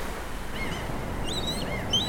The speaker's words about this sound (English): Those waves will continue to lull you to sleep, and they'll be there to wake you up